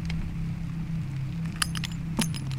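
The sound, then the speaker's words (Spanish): A key works the lock of a small wooden box: a few sharp metallic clicks and clinks stand out above a steady low hum. “Buscó en una cajita de madera con llave, la abrió y sacó un crucifijo.”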